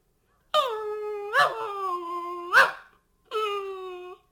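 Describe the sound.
A puppy whines in long, high, wavering cries: two drawn-out stretches broken by a couple of sharp yelping spikes, clear and alone.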